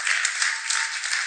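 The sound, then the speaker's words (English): Church audience clapping during a sermon, a dense, steady wash of applause from many hands with little rise or fall, bright and alone. “And I'm not against you clapping and I'm not being smart right now. I know we clap because our hearts know that's true.”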